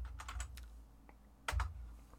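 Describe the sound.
Fingers type on a computer keyboard in faint, quick clicks, a few clustered at the start and a couple more later, with no talk over them.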